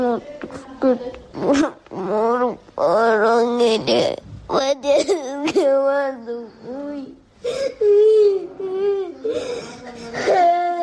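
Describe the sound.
A seven-year-old boy cries in pain, with loud, wavering, high-pitched wails and sobbing whimpers that run almost without a break through the whole stretch.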